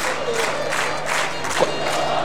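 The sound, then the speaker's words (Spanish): Football stadium crowd in Rancagua during a match, a loud sustained roar of many voices with scattered clapping, steady throughout with a brief louder burst near the end. “Cuando se prenden los aplausos acá en el teniente”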